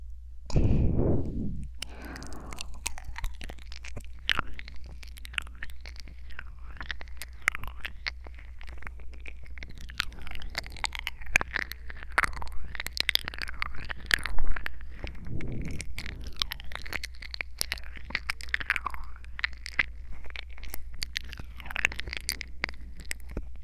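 Wet nibbling and eating mouth sounds at an ear, whispered ASMR roleplay, made of dense, continuous small clicks, smacks and crackles with a couple of soft low thumps, steady and close throughout.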